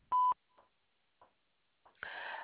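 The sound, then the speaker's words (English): A single short, loud electronic beep at one steady pitch marks the start of a voicemail recording, followed by a few faint clicks and then a steady wash of line noise. “At the tone, please record your message.”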